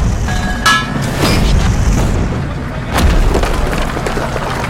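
An anti-tank gun fires an armour-piercing round in a wartime battle: a few heavy booms cut through dense, loud rumbling noise.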